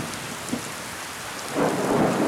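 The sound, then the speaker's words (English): A human voice imitates a storm with a steady, rushing, windy hiss that swells louder and rougher toward the end. “Did you like my storm noise?”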